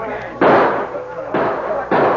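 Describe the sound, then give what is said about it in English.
Gunshots from attackers firing on a store during a siege, sounding as three loud, harsh bursts, each trailing off into noisy decay before the next. “One of the renegade shots shattered the glass from a window, and the boy covered his head.”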